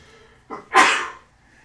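A single sneeze: a short, sharp intake of breath followed by a loud, explosive burst that trails off quickly into quiet.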